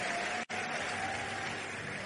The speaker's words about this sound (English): Give the Lord a big hand clap and please be seated.